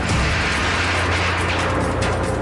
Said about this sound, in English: State police helicopter drops it. There is the explosion.